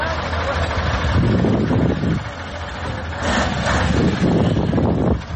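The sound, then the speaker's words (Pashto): Large trucks grind along a mud-covered, flood-damaged stretch of the Uruzgan–Kandahar highway, helping small cars through; a steady, heavy engine rumble with rough wind noise, briefly dipping about two seconds in before swelling again. “دا د اروزګان او کندهار د لوی لارې پر سر غټ موټرونه دي چې د کوچني موټرو سره مرسته کوي تر څو له لوړو او ژورو یې تیر کړي او له خټو یې راوځي.”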